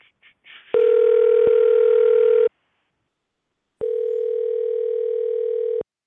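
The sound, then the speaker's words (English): Telephone dial tone sounds while a call is being dialed out: two long, steady, loud tones separated by a short silence, with a few faint noises just before the first. “Sit back while we dial out.”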